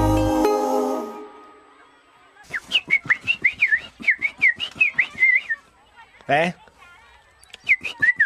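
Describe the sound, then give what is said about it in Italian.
A person whistles a lively tune in many short, high, bending notes, with a brief pause and a burst of another sound before the melody resumes. “Fischietto. Bravo.”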